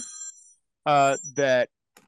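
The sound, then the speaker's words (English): A phone rings with two short, loud tonal bursts separated by a brief gap, then the line falls nearly silent. “my phone rang. Sorry about that, ladies and gentlemen.”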